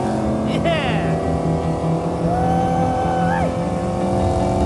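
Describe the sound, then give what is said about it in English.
Engine of a Mercedes-Benz W196 Streamliner racing car being driven, a loud, continuous drone with whining tonal lines that briefly climb in pitch. “Five times world champion Lewis Hamilton driving. Five times world champion Juan Manuel Fangio's W196 Streamliner.”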